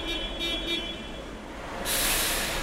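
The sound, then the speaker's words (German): A long-distance bus from Moscow pulls in at Breslauer Platz in Cologne: a steady, fairly quiet vehicle rumble, then a broad hiss that swells in the final second. “Der Bus aus Moskau trifft endlich ein.”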